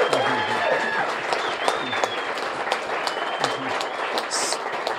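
Audience applause at a live music event: dense, steady clapping from a crowd that holds at an even level for the whole stretch, with a few higher whistles or cheers riding over it.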